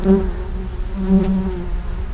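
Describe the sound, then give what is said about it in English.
Loud, continuous buzzing of honey bees around their hives, a dense droning hum from many insects in a healthy colony that wavers slightly in pitch without pause. “Each of his hives has a queen and a minimum of about 20,000 other bees bringing back pollen and nectar.”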